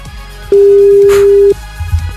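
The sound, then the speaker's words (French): A telephone ringing tone plays as a call goes out during a phone-in salary contest. It is a single steady, pure beep lasting about a second, loud against a quieter background. “Attention, le téléphone sonne, c'est peut-être le vôtre maintenant.”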